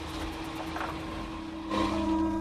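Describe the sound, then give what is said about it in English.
A car engine running: a steady low droning hum with a sustained tone that grows slightly louder partway through, with no voices. “As he listens to the sounds from the car's engine, David watches the lights of a lonely petrol station and motel.”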